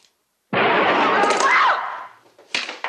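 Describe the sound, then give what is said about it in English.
A single loud gunshot bursts with a sharp attack and a long, noisy tail that fades out, followed by faint clatter. “Good shot”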